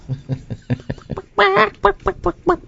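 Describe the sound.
Chicken clucking: a run of short, soft clucks in an uneven rhythm gives way to louder, brighter cackling bursts, then more clipped clucks, with no talk.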